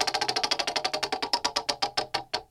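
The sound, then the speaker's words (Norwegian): Rapid ratcheting clicks from a prize wheel being spun. Many sharp ticks come quickly at first and then spread further apart as the wheel slows toward a stop. “Ok, skal vi bare spinne hjulet da? Spinne hjulet! Som vanlig! Kjør i gang!”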